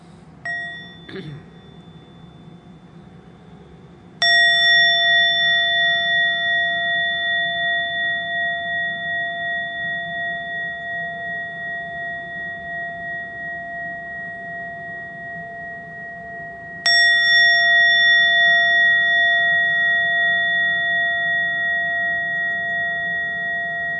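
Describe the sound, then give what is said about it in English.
A bell struck to open a session: two separate strikes, each ringing with a clear, bright, sustained tone that fades slowly over many seconds, with a faint knock before the first. “So I invite to sound the bell so that we can start.”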